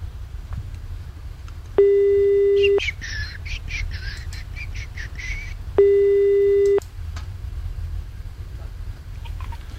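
Telephone ringback tone as an outgoing call goes unanswered and is redialled: two long, steady electronic rings a few seconds apart, with bright, chirping birdsong in between and a low background rumble.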